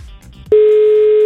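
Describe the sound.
A phone call rings out unanswered: after a brief quiet stretch, a loud steady electronic tone begins and holds at a single pitch.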